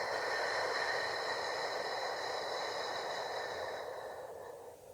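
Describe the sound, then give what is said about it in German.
A long, slow exhale during a breathing exercise: a steady airy hiss that stays even for several seconds, then thins and fades out near the end, with no talk. “Atme durch die Nase hoch in deinen Brustkorb hinein, bis er sich hebt, und dann atme lang und fein aus.”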